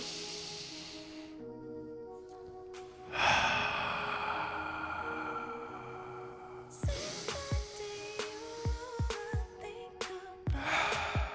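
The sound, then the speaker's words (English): A deep breath drawn in and let out, heard as long, soft, breathy hisses with no voice in them. “Deep breath in, deep breath out.”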